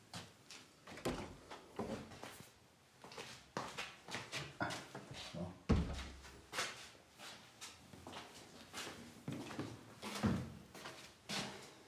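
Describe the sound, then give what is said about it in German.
A bathroom window being closed at home: many scattered clunks, knocks and rustles, with a stronger thud near the middle, spread across the whole stretch without speech. “Machen wir erstmal das Badezimmerfenster zu.”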